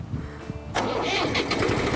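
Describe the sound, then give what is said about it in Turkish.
A car engine cranks and catches as the ignition key is turned with the clutch pressed, then settles into a loud, steady running rumble after a quieter lead-in. “Ondan sonra şu kontağımızı çevirdik mi motor çalışacak.”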